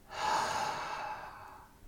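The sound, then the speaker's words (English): A person breathes out slowly through the mouth during guided relaxation breathing. It is one long, soft, airy exhale that begins sharply, then gradually fades. “Breathing in through your nose. And now breathe out of your mouth.”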